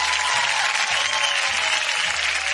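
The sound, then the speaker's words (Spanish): Applause from a crowd: dense, loud clapping runs evenly for the whole clip, with a low repeating tone pulsing beneath it. “Un fuerte aplauso también, ¿por qué no?”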